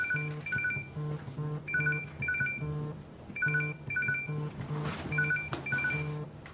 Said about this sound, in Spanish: Jax recibe una llamada de un número desconocido